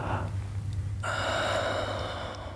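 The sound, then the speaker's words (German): A deep inhale taken during a guided breathing exercise starts about a second in. It is a long, steady, airy draw of breath with a faint whistling edge, and no one speaks. “Kontrollier deine Atmung. Tief einatmen.”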